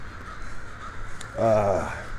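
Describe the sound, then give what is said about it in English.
Crows roosting in a city square give one short, harsh caw midway through. The call is fairly loud over a steady, low background. “I'm back at Jameson Square, which I'm going to rename Corvid Corner, because the crows definitely seem to enjoy roosting here.”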